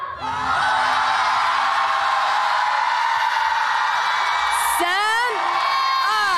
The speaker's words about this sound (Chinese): 让我听一听你们的呐喊声。